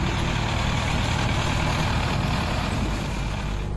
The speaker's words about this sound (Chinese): 仓斗装满之后，将油沙豆块茎倒进运输车辆，装车犁田。